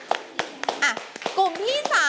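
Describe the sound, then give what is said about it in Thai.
Scattered hand claps from a class applauding a group of students presenting, sharp uneven slaps mixed with children's voices talking. “ปรบมือให้กับตัวแทนกลุ่มที่3ด้วยค่ะ”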